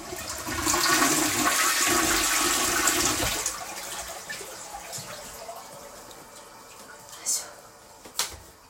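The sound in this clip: A toilet flushing: a loud rush of water for about three seconds that then drops to a quieter trickle, with two brief sharp clicks near the end.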